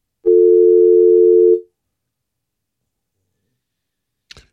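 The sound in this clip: Telephone line tone of an incoming call: a single sustained mid-pitched beep lasting just over a second, then silence broken by one brief faint click.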